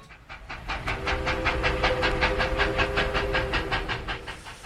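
A train wagon rolling along the rails, a fast, even clickety-clack of many regular beats over a low rumble and a faint sustained tone, with no voices.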